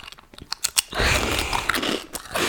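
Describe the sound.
Someone bites and chews food to act out eating. A few crisp, crunchy bites are followed by a sustained run of loud, crackling chewing noise.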